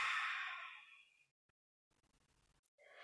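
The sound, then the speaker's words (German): Slow breath out through the nose during a breathing exercise, a soft airy hiss that fades away over about a second, followed by near silence with faint crackle before another breath begins. “Halte hier für einen Moment die Atmung und dann lass den Atem wieder über die Nase ausfließen.”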